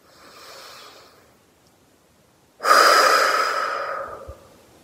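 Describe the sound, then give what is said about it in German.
A deep breath in and out: a soft, quiet inhale, then a pause and a longer, louder, breathy exhale that slowly fades, with no talking. “Atme einmal tief ein.”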